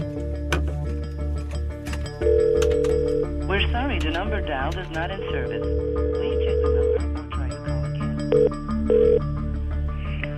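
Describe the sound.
Telephone dialing and ringing on an outgoing call: steady ringback tones and short beeps sit over a constant low hum, with fainter wavering sounds between them.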